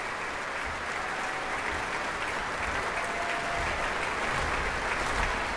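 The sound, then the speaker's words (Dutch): Audience applause at an orchestral concert, the crowd clapping for an encore. Dense, loud, continuous clapping holds at an even level throughout. “En het promgeklap voor de encore, voor de toegift.”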